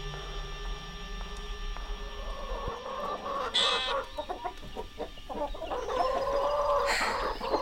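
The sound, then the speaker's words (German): Chickens cluck steadily in a busy mix of short calls. A couple of louder, drawn-out calls that could be a rooster crowing rise above the flock. “Ja, man schaut den Hühnern zu und entspannt sich.”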